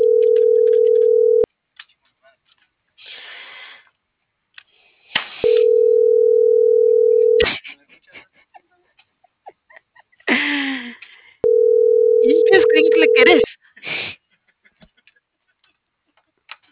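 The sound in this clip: Telephone tones heard through an earpiece while dialing a call: three steady, mid-pitched tones, each about two seconds long, separated by pauses in which a voice talks.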